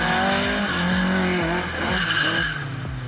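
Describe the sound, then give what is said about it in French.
A rear-wheel-drive Opel Manta oversteers, its engine revving loudly in repeated quick rises and drops, with tyre squeal mixed into the steady roar. “Ce qui est très sympa avec cet Opel Manta, c'est la maniabilité, son côté très survireur. C'est normal, on a quand même toute la puissance au roue arrière.”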